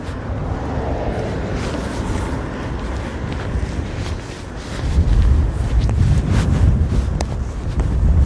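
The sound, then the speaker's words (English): Strong, brutal wind buffets the microphone in a continuous, roaring low rumble that swells noticeably louder about halfway through, with no voices. “that wind is brutal.”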